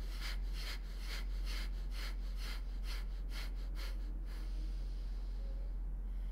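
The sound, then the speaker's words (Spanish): During a guided breathing exercise, faint breathing in and out comes in many quick, rhythmic breaths over about four seconds, then settles into a quiet hiss. “Exhala. Inhala. Otra vez.”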